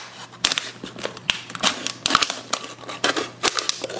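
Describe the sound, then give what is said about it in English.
Cutting through a plastic bottle while making a spinner toy produces many irregular crisp crackles and sharp snips, fairly faint, over a steady low hum. “we're gonna cut the bottle.”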